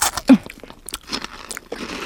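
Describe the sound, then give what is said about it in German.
Biting into a crunchy star-shaped cookie sprinkled with glittering topping: one sharp, loud crunch at the bite, followed by a few softer crunches of chewing, with no talk. “So, Fläschchen auf. Raufgestreut auf den Sternkeks. Bitteschön. Oh, der funkelt ja richtig, der Keks. Oh, den muss ich probieren.”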